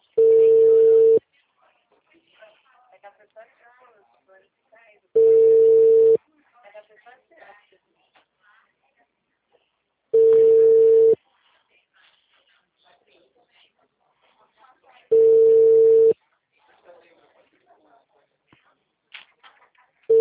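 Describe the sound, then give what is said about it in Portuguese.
A telephone rings unanswered. Four long, steady ring tones sound evenly spaced about five seconds apart, and a fifth begins at the end, with faint, scattered sounds in the quiet gaps. “Chama, chama ninguém atende. Daqui a pouco eu tento de novo.”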